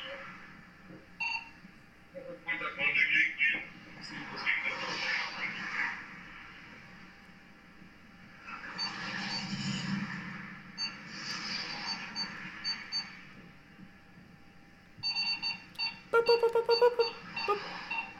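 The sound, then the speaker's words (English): Electronic beeps from the Snake video game come in scattered bursts over a hissy background, with a clearer run of tonal bleeps near the end. “He's playing, not Worms. What is the caterpillar? Fuck. Snakes? Snakes. He's playing snakes right now.”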